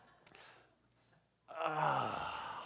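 A group groans together on cue, a swelling, drawn-out chorus of low voiced groans that rises out of near silence and holds steady. It stays fairly faint overall.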